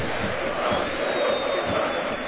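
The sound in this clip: A stadium crowd at a Red Star Belgrade football match applauds a player leaving as a substitute: a steady, broad wash of crowd clapping and noise that stays at an even, moderately loud level throughout.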